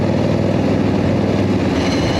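Car engine during hard driving through turns with gear changes, a loud, steady, low rumbling drone that holds without a break.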